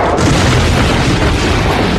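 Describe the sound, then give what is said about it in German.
Heavy, crashing boom as a giant titan topples against a tower and tears a hole in the building, a story sound effect; a loud, dense rumble that holds steady for the full two seconds. “Der Riese riss ein meterhohes Loch in das Gebäude und blieb regungslos liegen.”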